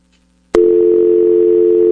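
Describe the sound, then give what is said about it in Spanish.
Telephone dial tone heard while redialling: a brief quiet, then a click and a loud, steady, unbroken tone that holds to the end. “Y la llamada entra, a ver, vamos a ver. Bueno, vuelvo a marcar entonces”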